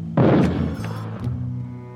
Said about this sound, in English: that was mortars.